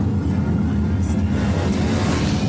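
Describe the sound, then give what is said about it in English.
A car drives up to a hotel, its engine giving a steady, low rumble that stays even in loudness throughout, with no sharp changes in pitch. “Where are we going? Okay, they're driving up to it.”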